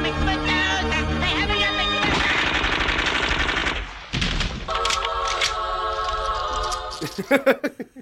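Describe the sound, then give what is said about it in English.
Machine-gun fire in a film scene of a rampage through a theater during a live television broadcast. Dense, rapid bursts blend into loud music, and a few sharper, separate shots ring out near the end. “he could be on the show right up until the moment Heidi just blows him away with the machine gun.”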